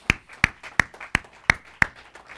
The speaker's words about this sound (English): Everybody stand with me if you would. Let's give the Lord a hand clap this morning.